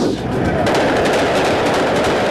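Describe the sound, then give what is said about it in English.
Gunfire from people shooting at an intersection in New York City's Times Square: a fast, dense run of many sharp cracking shots over loud, continuous noise. “Gunfire erupts in New York City's Times Square, sending bystanders running for cover.”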